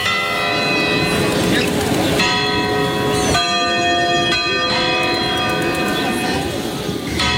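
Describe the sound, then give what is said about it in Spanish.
Village church bells ringing: a loud, continuous peal of overlapping metallic tones that blend into a sustained shimmering wash, with fresh strikes renewing the sound throughout. “Ah, qué bonito repican las campanas de mi pueblo. Suenan a misa y a incienso”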